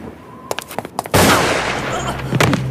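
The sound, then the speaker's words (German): A gunshot in a horror radio drama: a few faint ticks, then a sudden loud blast that spreads into a sustained, noisy roar lasting to the end. “Bleib, wo du bist. Oder ich werde schießen.”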